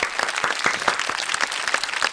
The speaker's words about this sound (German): Matt, erst Applaus. Bravo. Bravo, Adrian, fürs Zählen.